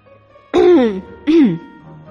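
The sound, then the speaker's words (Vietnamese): A light cough, given as two short voiced coughs like throat clearing, each dropping in pitch, the first slightly longer, then quiet. “Lô Phương ho nhẹ một tiếng, nhắc nhở Bạch Ngọc Đường và Triển Chiêu”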